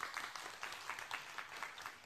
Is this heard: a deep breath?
no